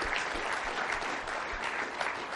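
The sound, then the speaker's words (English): A church audience gives a steady, sustained round of applause for a couple being honoured at a service, a dense even clatter of many hands with no talking over it. “Chris and Jamie have been, let's give Chris and Jamie a round of applause.”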